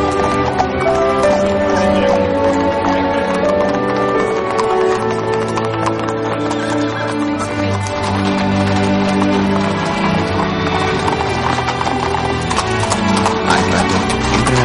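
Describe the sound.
Horse hooves clip-clop steadily as a horse-drawn carriage arrives at a royal palace, a continuous rhythmic clatter beneath music throughout.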